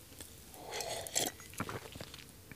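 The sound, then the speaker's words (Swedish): Someone takes a sip of water: faint, wet mouth and swallowing sounds with a few soft gulps, and no talking. “Och då ska jag ta med en klunk vatten.”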